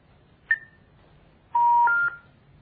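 Telephone keypad dialing tones from a phone being used to call a number: one short beep, then a longer, steady dual-pitched tone, clear and alone.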